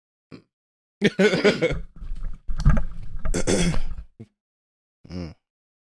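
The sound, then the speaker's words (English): A man clears his throat in a few harsh, raspy bursts with short pauses between them, ending in a brief voiced grunt. “Clear that throat, man.”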